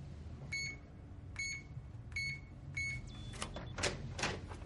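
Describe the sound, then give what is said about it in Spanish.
Four short electronic beeps at an even pace as a code is typed on a door keypad, followed by a brief higher tone and a few soft mechanical clacks, all fairly faint. “Mira la botonera junto a la puerta. Teclea el código.”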